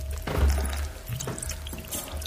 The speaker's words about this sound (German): Er gießt der Azalee nach. Du auch. Danach bekommt sein Philodendron zu trinken.